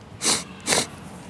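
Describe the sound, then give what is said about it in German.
Two short, airy sniffs from a Sonic video game, each a quick breathy burst of noise with a brief gap between them. “So, das Schniefen. Ich glaube im Monaco-Abschnitt.”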